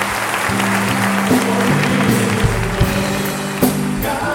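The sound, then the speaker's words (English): Applause from a church audience during a worship service: dense, steady clapping that stays loud throughout. “Would you thank him with a clap offering?”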